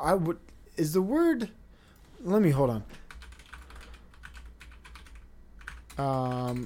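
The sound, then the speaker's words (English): Typing on a computer keyboard: many light, quick clicks in an irregular run, set between stretches of a man talking. “I hate when I type, I apologize.”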